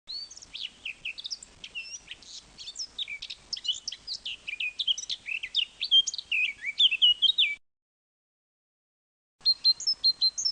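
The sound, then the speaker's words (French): Eurasian blackcap song: rapid, bright warbling phrases of high, varied notes run on without a break, then stop for a couple of seconds before a short burst of song starts again. “La fauvette à tête noire.”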